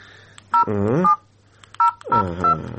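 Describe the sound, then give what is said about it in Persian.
A telephone number being dialed: a few short, bright dialing tones in two bursts, with a voice briefly sounding between and alongside them. “تو باش که اول به این سرگروپ یک زنگ بزنم که چی میگه.”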